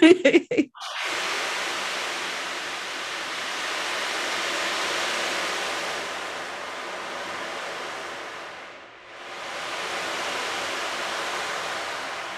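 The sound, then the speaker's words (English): An ocean drum's rolling beads make a steady, hissing wash like breaking surf. A few light knocks come first, then one long, even swell that fades briefly near the end and surges back. “And so people love the ocean drum because it really does sound like the ocean.”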